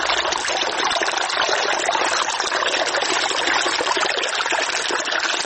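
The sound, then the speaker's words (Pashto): A small river flows beside the Sanglakh area near Kabul, giving a loud, unbroken rush of water that stays even and steady, with no voices. “د بیلابیلو سیلانیانو کوربا سنگلاخ په خپل څنګ کې یو کوچنی سیند هم لري چې سیلانیان ورڅخه زیات خوند اخلي.”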